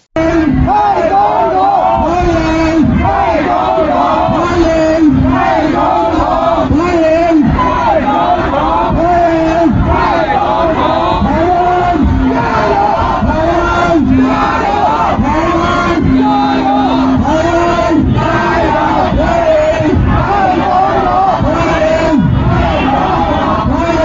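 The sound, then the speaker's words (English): A loud crowd of pro-China and pro-Taiwan protesters in New York during President Tsai Ing-wen's transit, many voices chanting and shouting in a rhythmic, repeated pattern that continues without pause. “There were approximately 500 pro-China protesters and 150 pro-Taiwan supporters.”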